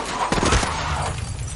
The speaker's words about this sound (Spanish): La moto se estrella contra el Chevrolet en un cruce.